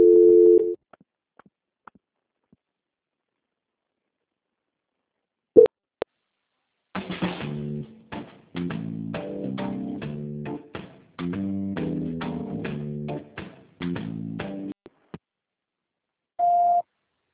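Telephone line tones during a call transfer: a short steady tone and a few clicks, then several longer bursts of buzzing ringback-style tone separated by pauses, ending with a brief higher beep.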